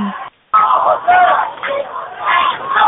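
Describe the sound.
A tense crowd at a street protest chanting slogans and shouting together, a dense, loud roar of many voices that runs almost without a break and briefly cuts out early on.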